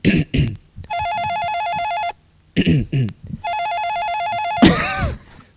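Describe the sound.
An electronic telephone rings in two warbling bursts, each lasting just over a second, loud and steady, with people talking before, between and after the rings.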